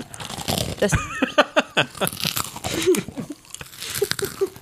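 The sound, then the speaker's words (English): A hard food is bitten and chewed right at the microphone: loud, crackly crunches arrive in many irregular bursts, some sharp and sudden, others softer and grinding, all very close and dry. “trying to take, like, a super close to the mic bite. There it is. I'm sure that sounds great.”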